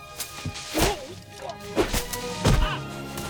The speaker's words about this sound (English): The pine branches slap him.